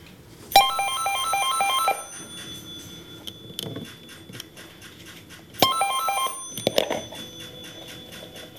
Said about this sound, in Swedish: Mattias Forsblom var med när operatören Elisa under ceremoniella omständigheter kopplade upp det sista samtalet idag